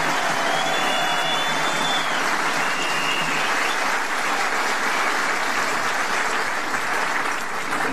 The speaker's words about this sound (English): maybe you just keep your applause for the end so I don't cut into other people's time